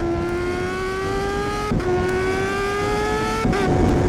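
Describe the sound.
A car engine revs hard while accelerating, its pitch climbing steadily, with two brief dips where gears change before it climbs again, loud and continuous throughout.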